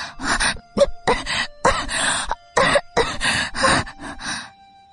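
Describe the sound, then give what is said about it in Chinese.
A child coughs hard, a series of harsh bursts of coughing after scrambling out of bed. “云朵高兴的从床上爬起来，因为动作过大，惹得他又狠命的咳了几声。”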